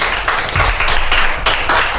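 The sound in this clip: Audience clapping for a student after a talk about the local foods of Tanjung Pinang, a few fairly loud rhythmic bursts of hand claps following one another in quick succession.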